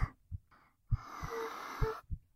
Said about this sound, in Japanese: あくびしちゃった